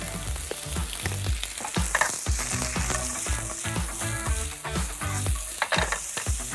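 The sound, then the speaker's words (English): Onions frying on full heat in a pan, producing a continuous, lively sizzle and crackle at moderate loudness, alone without voices. “Also the onions, full power fire, so they get a little bit caramelized, they develop nice flavor.”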